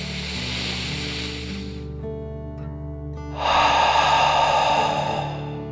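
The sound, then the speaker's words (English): A slow, deep breath in and then out, taken as a relaxing 'dragon breath' in a children's bedtime exercise. A soft hiss is followed by a louder, fuller exhale over a steady sustained tonal hum. “As you radiate energy and light, let's take one last deep dragon breath in and out.”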